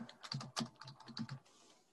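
Computer clicks while subtitles are added on a video page: a rapid, irregular series of about eight sharp, dry clicks, some doubled, alone and at low level, then quiet.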